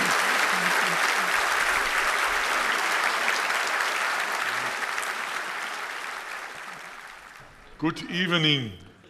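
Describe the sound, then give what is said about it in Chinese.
An audience at a church gathering applauds to welcome a guest speaker. The steady, dense clapping slowly fades away, and then a voice begins speaking near the end. “现在我们大家鼓掌欢迎 Dr. Bai.”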